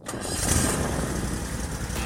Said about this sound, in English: That's the sound of a day starting out right. I hear it every time my new Toro Z-Master 4000 Zero Turn starts up.